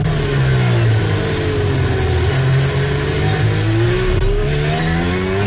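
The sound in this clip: A Formula 1 car engine revs during the 2023 United States Grand Prix race as Norris's car runs hard, a loud sustained mechanical whine whose pitch wavers with small dips and rises.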